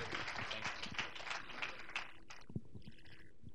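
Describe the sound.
Audience applause welcoming a speaker onto the stage: dense clapping for about two seconds, then it thins out and dies away, leaving a few low thumps.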